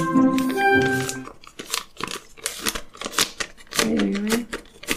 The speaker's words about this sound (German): Ich öffne den Umschlag.